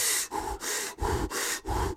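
Loud, rhythmic breathing exercise: about six forceful, rough breaths in quick, even succession, each a harsh rush of air with a brief pause between.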